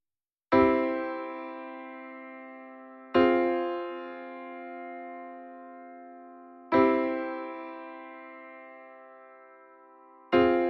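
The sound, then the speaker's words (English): Four sustained chords rock between the home chord of the key and a minor four chord, each struck cleanly and left to ring and fade slowly before the next. “we're rocking back and forth between a one chord, or the home of the key, and the minor four. It sounds like this.”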